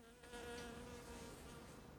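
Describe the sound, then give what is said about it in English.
A bee buzzing near a breakfast table makes a faint, steady drone that holds an even, continuous pitch for the whole clip after a short quiet start. “A bee lands on the breakfast table.”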